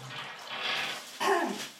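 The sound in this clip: Bath water running from the tap into a tub, a steady rushing hiss that swells louder partway through, with no talk.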